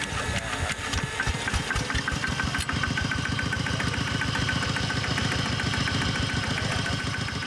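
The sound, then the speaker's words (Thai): Engine of a Thai farm truck (rot e-taek) carrying tourists, idling with a loud, steady chug of rapid, regular knocking pulses and a rough mechanical rattle, heard alone without talk. “รถอีแตกชาวบ้านที่ไม่ได้สร้างประโยชน์ในช่วงไม่ใช่ฤดูการทำนาไม่ใช่ฤดูการขนของเนี่ยเอามาขนคนไปเที่ยว”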